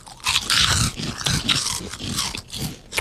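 Crunching and chewing of salt and vinegar flavoured Cheezels chips: a few loud, brittle bursts of crackling bites with no talk between them.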